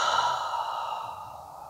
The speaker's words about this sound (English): Breathe in through your nose. Breathe out through your mouth.